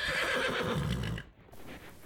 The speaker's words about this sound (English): I have a couple horses here.